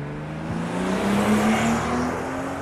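A BMW 3 Series car accelerating: a steady engine drone whose pitch climbs smoothly as it gains speed, swelling louder in the middle before easing slightly.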